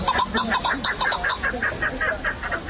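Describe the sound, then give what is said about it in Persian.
Chukar partridge calling, the prized songbird and fighting bird of the Tajik people near Qurghonteppa, giving many quick, rhythmic clucking notes at a steady pace and moderate volume. “این صدای کپک یکی از پرنده های خوشخوان و خیلی دوست داشتنی مردم تاجیک است.”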